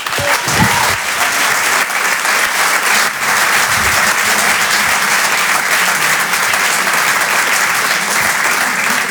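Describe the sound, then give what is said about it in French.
Dense, sustained applause from an audience welcoming a comedian on stage at a French stand-up comedy show, loud and steady from start to finish without a break. “Faites du bruit, s'il vous plaît, pour Jérémy Lorca.”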